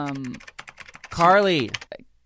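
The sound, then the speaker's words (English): Computer keyboard typing gives quick, irregular clicking that runs beneath people talking over it. “She's too busy typing. She has the headphones on. She's too busy typing.”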